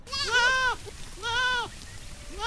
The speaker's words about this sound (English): We've just come across dozens of goats, mostly mothers and their kids, grazing within the park area.